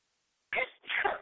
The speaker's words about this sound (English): Oh, child, I don't know what it is about this time of year, but now all of a sudden I'm going to sneeze and it's getting on my nerves.